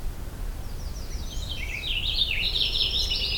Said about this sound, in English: Purple finch. Now, I encountered this purple finch here in this location